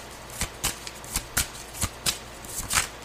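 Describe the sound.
Playing cards are shuffled and flicked. Many crisp, sharp riffling snaps come at an irregular pace and are moderately faint.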